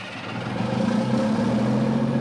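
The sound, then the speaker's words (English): The diesel engine of a 19-ton mine-resistant, ambush-protected armored personnel carrier powers up, giving a steady low rumble with a tonal hum that grows slightly louder and then holds. “A sheriff's deputy powers up the diesel engine of Page County's 19-ton, mine-resistant, ambush-protected armored personnel carrier, better known as an MRAP.”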